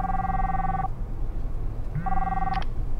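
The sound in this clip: A mobile phone rings with two steady electronic tone bursts separated by a short pause. The tone holds an even pitch and is moderately loud over a faint background hiss.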